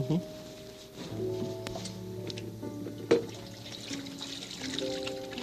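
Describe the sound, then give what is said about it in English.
Tap water runs while hands are washed under it, a soft pouring and trickling that continues throughout beneath gentle sustained musical tones. “I'll clean all of this up later. But now I'll wash my own hands.”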